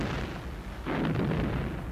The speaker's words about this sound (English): Imperial weapons bombarded the area all around them, blasting the snow skyward, almost blinding their human targets with the continuous onslaught.